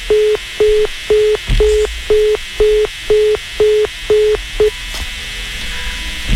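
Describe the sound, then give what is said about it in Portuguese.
Telephone tones as a call is redialed after it dropped. About ten short beeps of the same steady pitch repeat at even intervals, the last one cut short, followed by a faint steady line hum. “O José Carlos caiu a ligação do José Carlos lá em Franca, São Paulo, mas nós vamos retomar a ligação para ele”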